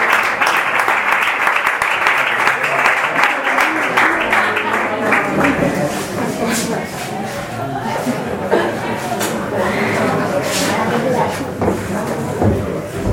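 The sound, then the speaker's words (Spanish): Applause from an audience at an informal gathering as a singer is welcomed: dense, steady clapping that holds at an even loudness for the whole stretch, with no clear speech over it. “Un aplauso para Maribel.”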